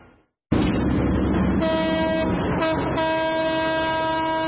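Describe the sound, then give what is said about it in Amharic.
A train horn blasts loudly and steadily over the rumble of an old train on a century-old, French-built railway as it pulls out of Dire Dawa station, after a brief near-silent moment at the start. “ባቡር ከድሬዳዋ ጣቢያ ከፍተኛ ድምፅ እያሰማ ይወጣና በንጋት ጨለማ ውስጥ ይሰወራል።”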